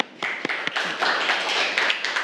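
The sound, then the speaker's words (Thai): A class applauds its student group representative. Clapping starts just after the opening with a few sharp early claps, then settles into a dense, steady patter that holds to the end. “ปรบมือให้กับตัวแทนกลุ่มที่2ของเราค่ะ”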